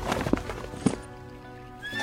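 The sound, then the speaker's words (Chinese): A horse, ridden along a river course, whinnies in a long harmonic cry while a few hoof clip-clops thud beneath it. Clear and fairly loud, with no talk. “陈泽明看着萧锦骑马沿着河道一路往下流而去”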